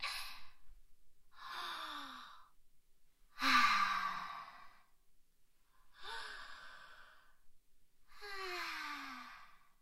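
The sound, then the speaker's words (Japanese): Five slow, deep breaths in and out, each a soft airy sigh with a faint falling tone, spaced a couple of seconds apart and fairly quiet, with near silence between them and no words. “ちょっと深呼吸する。”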